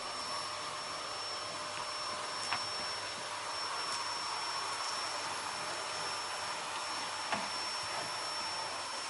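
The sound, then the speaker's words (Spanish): A vacuum cleaner runs over a Persian rug in a living room as the nozzle slides under a grand piano, giving a faint, steady whirring hum with a couple of brief soft knocks. “pasa el aspirador por la alfombra persa del salón. Se agacha y desliza la boquilla limpiando bajo el piano de cola.”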